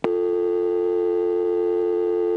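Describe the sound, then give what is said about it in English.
A telephone dial tone sounds immediately after a number is dialed on a landline. It is a steady, continuous buzzy hum with a strong low pitch and bright overtones, holding at an even loudness without breaks. “it gave me a second dial tone, but it was the normal dial tone.”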